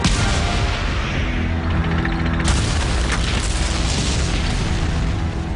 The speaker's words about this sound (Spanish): Sin embargo, el tanque de Leach se para y un Panzer lo destruye.